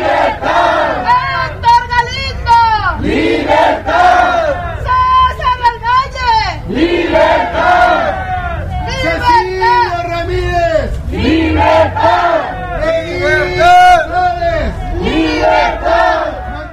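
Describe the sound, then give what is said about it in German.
Protesters near the seat of government chant for freedom for political prisoners. The crowd shouts loud, rhythmic chants that repeat in regular cycles, with many voices rising and falling together over steady crowd noise. “Doch auch durch die geschlossenen Fenster dürften die Rufe der Menge zu hören gewesen sein.”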